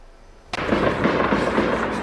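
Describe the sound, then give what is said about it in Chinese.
Gunfire near an Independence Day rally in Kabul breaks in with a sudden sharp burst, then continues as a loud, dense, crackling roar without pause. “在首都喀布尔，独立日集会活动附近传来阵阵枪声。”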